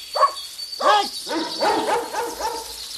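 A dog barks and yips in a quick, irregular series of several short, sharp calls, moderately loud, with the later barks coming closer together.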